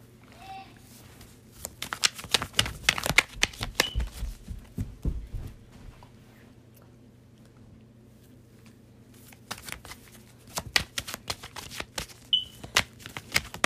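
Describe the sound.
Tarot cards being shuffled in two long bursts of rapid riffling and slapping, separated by a quiet pause, over a low steady hum.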